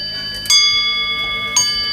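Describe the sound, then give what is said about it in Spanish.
Railway bells ring in bright, sustained metallic tones, with two sharp struck onsets about a second apart and lingering resonance between them. “Y de ese sonido de campanas a uno que podría sonar digital”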